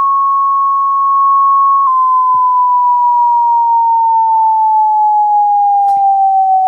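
Synthesized tone for the second formant, F2: a clear sine tone that holds steady for about two seconds, then sinks gradually and slightly in pitch with a soft, regular pulsing wobble, staying at a constant moderate loudness throughout.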